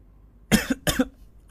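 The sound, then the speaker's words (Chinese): Two heavy coughs into a thick scarf, close together and fairly faint, with silence before and after. “魏谦在厚重的围巾里重重地咳嗽了几声”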